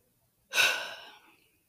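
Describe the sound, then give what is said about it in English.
A single deep breath bursts in suddenly as a strong, airy rush, then tapers off gradually over about a second against near silence. “takes a deep breath.”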